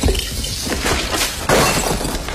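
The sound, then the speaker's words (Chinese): A vase shatters with a harsh, loud crash and a spray of scattered breaking fragments; a second burst of breakage follows partway through. “花瓶碎了就碎了吧。”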